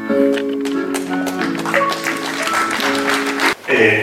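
Hands clap in applause for a performer, many sharp claps over sustained tones. The clapping drops out briefly near the end and then resumes.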